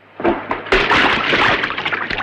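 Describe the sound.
A body lowered into the sea at a burial lands with a sudden heavy splash, then water sloshes and churns, slowly fading.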